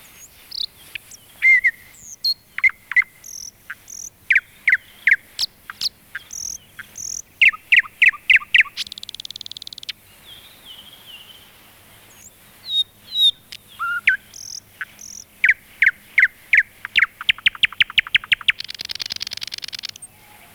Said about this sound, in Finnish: Satakieli.